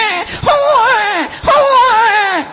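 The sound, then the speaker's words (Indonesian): A preacher at an Islamic religious gathering imitates a newborn baby crying with his voice: two loud, wavering wails, each starting abruptly and sliding downward in pitch, with a brief break between them. “Suarane napa niku, Bu? Bayi jare.”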